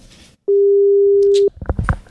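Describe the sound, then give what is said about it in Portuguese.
A single steady ringing-tone beep sounds for about a second as a phone call is placed, with people talking quietly before it and more voices after it. “Vamos te ligar, hein”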